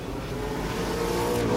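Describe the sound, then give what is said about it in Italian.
A Chevrolet eight-cylinder car engine running, a loud, deep and continuous rumble that grows slightly louder over its brief span. “senti l'otto cilindri Chevrolet.”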